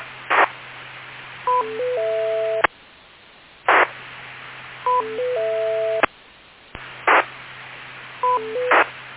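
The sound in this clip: Telephone dialing tones repeat in three identical cycles: each opens with a short noisy burst, then a run of stepped electronic beeps of shifting pitch, and ends in a sharp click.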